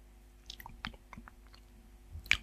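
Faint chewing of an artificially pear-flavoured candy, with a few soft, crunchy bites and wet mouth clicks spaced irregularly and a sharper crunch near the end.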